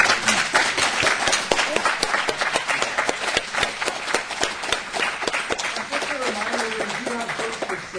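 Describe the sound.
Audience applause at an author's book event, dense, continuous clapping from many hands that stays even throughout, with voices rising under it toward the end.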